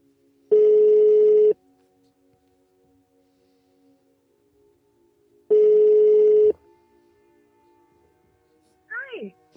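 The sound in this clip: Two evenly spaced telephone rings sound on an outgoing call, each a buzzy burst of about a second separated by several seconds of near silence. A faint steady tone follows the second ring.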